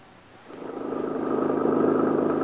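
A car engine hums as it drives along a country road. It starts quiet, swells over the first second, then settles into an even, low, continuous drone.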